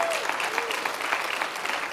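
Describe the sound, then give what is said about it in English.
Church audience applauding its worship team and volunteers during a service: dense, steady clapping from many hands that holds at an even moderate level for the whole stretch, with no voices standing out. “Come on, give them a big clap.”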